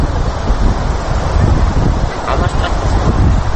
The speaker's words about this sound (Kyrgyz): Бери жактан каалгып агып жаткан дайрага жакындаган сайын күрүп-күрөп улам сүрдүү көрүнөт.